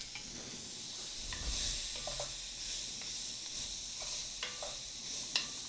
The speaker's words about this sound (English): My onion was really, really small, so I did two in there. No harm, no foul. And I need to get these softened up.